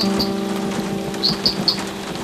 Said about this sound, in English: which dances to the drops that syncopate against the tin drum skin roof. The first rain of the season.